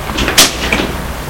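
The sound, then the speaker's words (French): A home's front door being opened, heard as a sharp latch click followed by a softer knock. “Ouvre la porte.”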